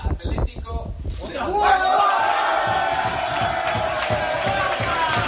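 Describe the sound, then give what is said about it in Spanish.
Players of a third-division football club cheer in a locker room after a cup draw pairs them with a top-flight side. A few sharp claps or slaps lead into a loud, sustained roar of shouting voices. “Y el sonido de otro modesto, el único equipo de tercera de todo el bombo, el San Andreu, emparejado con el Atlético de Madrid.”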